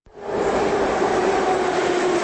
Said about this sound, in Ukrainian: Я знаходжуся каля ўваходу ў станцыю метро Кастрычніцкая.